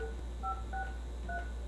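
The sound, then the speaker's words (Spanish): Telephone keypad dialing tones: a few short, bright two-note beeps separated by uneven pauses, heard faintly over a low steady hum. “chancita para marcarle al Junior”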